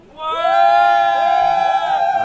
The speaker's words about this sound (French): Alors, au moment où on se parle, Nick, hein, j'aimerais tout de même préciser que nous ne sommes pas seuls. Alors, le public qui est venu à la Clanche, est-ce que vous pouvez vous manifester un petit instant, s'il vous plaît ?